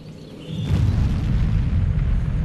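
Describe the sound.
A nuclear bomb explosion from a political ad bursts in as a deep, sustained rumbling roar after a brief quieter opening, staying loud and low to the end.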